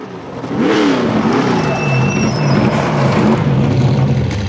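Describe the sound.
A car engine revs hard as it races through desert terrain, a loud, continuous roar whose pitch wavers up and down before settling into a steady drone.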